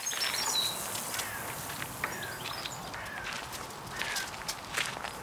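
Footsteps crunch through a soybean field in a steady walking rhythm over a rustling, noisy background, while faint bird chirps sound above the steps.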